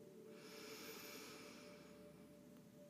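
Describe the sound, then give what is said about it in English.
A slow, deep exhale during a breathing exercise: a faint, airy hiss of breath that swells and fades over about two seconds, with no talking. “And slowly exhale.”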